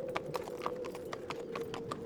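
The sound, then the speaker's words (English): Horse hooves clip-clop in a quick, steady rhythm as the horse pulls a carriage over ice-slicked ground. The crisp hoof strikes repeat many times over a constant low hum. “the carriage jolts forward, the wheels sliding on the ice-slicked earth.”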